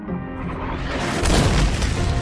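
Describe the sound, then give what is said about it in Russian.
Rocket explosion as an incoming rocket strikes its target in a sci-fi combat scene and sets off a volumetric blast: a dense, continuous roaring rumble that swells noticeably louder halfway through, with no voices. “Прилетевшая ракета достигла своей цели, и на месте Исура возник объемный взрыв”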